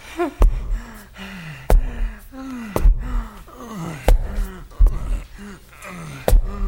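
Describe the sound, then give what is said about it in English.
Heavy panting from a man out of breath after climbing stairs: loud, repeated gasping breaths, many with a voiced, moaning tone that drops in pitch, in an uneven rhythm with no talk. “he's taking the stairs. That means he's gonna be way out of breath.”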